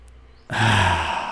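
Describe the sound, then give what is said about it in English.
After a quiet pause, a deep breath that was held during a relaxation exercise is released in a loud, breathy rush of air lasting about a second and gently tapering off. “taking a really nice and deep breath and maybe tense up all your muscles. Hold it for a while.”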